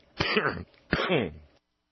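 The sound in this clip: Throat clearing or a cough: two harsh, fairly loud rasping bursts separated by a short pause, heard alone with no talk.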